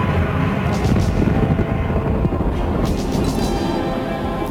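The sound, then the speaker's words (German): A spaceship lifts off and races away as a radio-drama effect: a loud, dense, engine-like roar with a heavy low rumble, holding steady and easing slightly at the end. “Das Schiff rast davon.”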